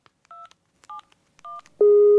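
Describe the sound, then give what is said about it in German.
Telephone keypad tones as a number to the police is dialed: three short, clean beeps with gaps between them, followed by a louder steady tone that holds to the end. “Im Januar 2026 wählt sie die Nummer der Polizei.”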